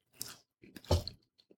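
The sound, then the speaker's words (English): Chewing of reheated day-old pan pizza, microwaved and chewy, comes as a few soft, moist mouth bursts with brief pauses between, faint and alone without talk. “It's day-old pizza. Really chewy, because I think it got nuked to reheat it, and it's been sitting there for a while.”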